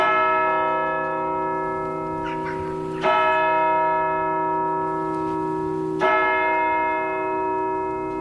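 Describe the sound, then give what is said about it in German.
Old church bells ring out after a wedding, rich sustained tones struck afresh at steady intervals of about three seconds, each stroke blooming and slowly decaying into the next, with no voices. “Hierauf läuteten die alten Kirchenglocken so munter, wie sie konnten, und die Hochzeitsgesellschaft kehrte nach Hause zurück.”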